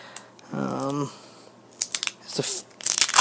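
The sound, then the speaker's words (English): Duct tape is torn and pulled from the roll to tape a salad bowl lid shut, making a few harsh, rasping rips after a brief voice. “You hear that duct tape? It's a satisfying noise, isn't it?”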